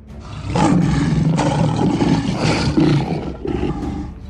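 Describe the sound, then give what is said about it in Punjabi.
Two lions roar in a deep, rough, sustained rumble that swells after a soft start and stays loud to the end, with no voices. “सो उस रात ओ शेर दे रूप विच तब्दील हो गए। ओ दो भयानक शेर शाही सोन वाले कमरे विच दाखिल हो गए।”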